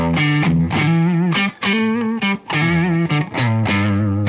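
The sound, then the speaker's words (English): Electric guitar played through its stock neck pickup, with a bright, bitey, distorted tone: a riff of sustained notes and chords with a few short breaks between phrases. “These are the stock pickups that come in them, and this neck pickup is really like bitey.”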